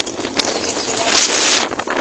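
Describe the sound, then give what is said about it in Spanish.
Strong wind at about 45 km/h in Comodoro buffets the microphone with a loud, steady, rushing roar, swelling and easing in gusts throughout. “está soplando bastante viento, así que te dejo un audio con estos 45 kilómetros por hora de viento, unos 10 grados”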